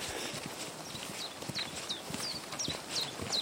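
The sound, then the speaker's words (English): A chiffchaff, a spring migrant, sings from trees beside a path along a dry stone wall. Its high, thin notes repeat in a steady series over footsteps and rustling. “that's a chiffchaff, one of the migrants coming in for the spring. But yeah, very distinctive. Chiffchaff, chiffchaff.”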